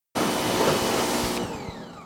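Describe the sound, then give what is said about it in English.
An electric pressure washer sprays an electric lawnmower. A loud, steady rushing hiss starts abruptly and holds, with its texture shifting a little toward the end, and no voices are heard. “why are you power hosing the electric lawnmower?”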